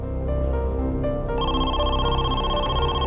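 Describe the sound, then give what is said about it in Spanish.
Telephone ringing for an incoming call, a steady electronic tone of layered pitches that adds a higher pattern midway and rings on throughout, with no voices. “A las 9 de la noche, la hermana de Donnell recibe una llamada.”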